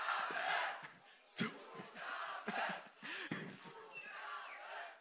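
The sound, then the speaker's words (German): A concert audience chants "Zugabe" to call for an encore, with repeated rhythmic group shouts that rise and fall in bursts, all fairly faint. “Könnt ihr alle nochmal eine Zugabe geben? Nochmal eine Zugabe, dann hört sie es. Also 3, 2, 1. Zugabe!”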